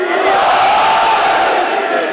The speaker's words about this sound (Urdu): ایسے نہیں نعرہ لگانا ہے تو پھر حیدری جذبے کے ساتھ نعرہ حیدری،